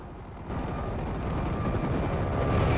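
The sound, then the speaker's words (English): A dull green military helicopter rises from below a line of cliffs, its rotors making a dense, rapid thudding chop over a rough engine roar. The sound grows steadily louder. “a dull green military chopper rises up from below the cliffs with Eric at the controls”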